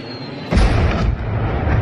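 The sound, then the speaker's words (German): A sudden heavy boom from an artillery shell striking during a wartime bombardment of a city's outskirts, breaking out of near quiet halfway through and trailing into a loud, sustained, rumbling roar. “dann das Geräusch eines einschlagenden Geschosses, eine Explosion und dann dasselbe von der anderen Seite.”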